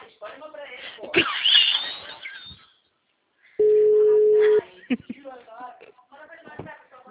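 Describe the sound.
A steady, mid-pitched telephone tone holds for about a second as a phone is dialed to call back after a dropped call, set between stretches of talk.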